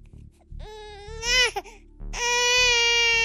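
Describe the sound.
A newborn baby crying in two loud wailing bursts, the second longer and sustained, high-pitched and strongly harmonic over a faint low pulsing background.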